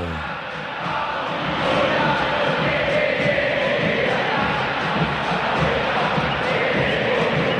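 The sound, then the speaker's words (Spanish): A football crowd roars at the Monumental stadium as River and Rosario Central come out onto the pitch. The mass of voices forms a dense, loud, continuous rumble that swells early and then holds steady. “Allí están River y Rosario Central y el público. El público. Habla el Monumental. Escúchalo.”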